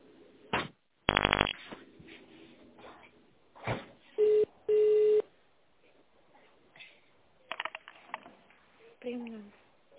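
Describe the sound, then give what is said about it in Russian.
Keypad tones dial an extension after an automated phone menu: two steady beeps, one short and one longer, over a narrow telephone line, with scattered clicks, buzzes and muffled noises before and after. “Для соединения с приемной нажмите 0. Или наберите внутренний номер абонента.”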